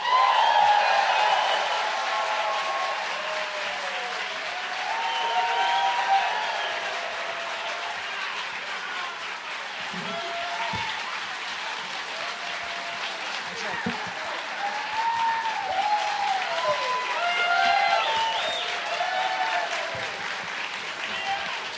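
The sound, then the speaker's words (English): Audience applause welcomes four guests onto a show, a sustained wash of clapping lasting around twenty seconds, rising and falling slightly in strength, with voices talking over it throughout. “Let's give a big warm welcome to Jesse Pasternack, Ellie and Kalan, Doogie Horner, and Dan Fogler.”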